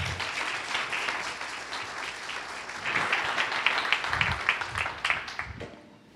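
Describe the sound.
A church fellowship audience applauds to welcome a speaker before a sermon. The clapping swells, then thins and fades away at the end.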